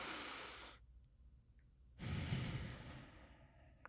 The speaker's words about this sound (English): Just take three big breaths in and out. You can even put your finger in the center of your chest as you breathe in and out.